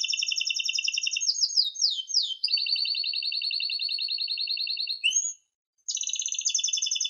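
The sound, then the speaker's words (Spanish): A canary sings in rapid, high-pitched trills and rolling phrases, shifting between bright repeated notes, then breaks off briefly before resuming its quick chatter. “Ese es un canto de canario.”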